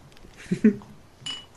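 Glass beer bottles knocked over and clinking: two quick, bright clinks in close succession, followed by a brief soft clatter, with no voices.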